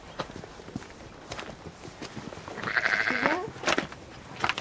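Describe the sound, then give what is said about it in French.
A ewe gives a single wavering, nasal bleat about a second long, amid repeated light crunching footsteps outdoors on a sunny day. “Et puis il y a la brebis qui nous accueille.”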